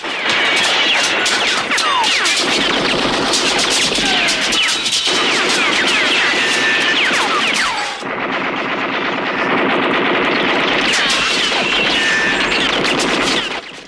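Heavy gunfire rakes a sheriff's office, shooting out its windows: a continuous, loud, crackling barrage of rapid shots that runs almost unbroken for the whole stretch, with only brief dips in the clatter.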